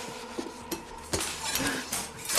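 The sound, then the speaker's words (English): A chef's knife scrapes across a black marble kitchen countertop: a few light metallic clinks, then a louder, sustained gritty slide of blade on stone that rasps on to the end. “She fumbles for a chef's knife on the black marble top and manages to slide it into her grasp.”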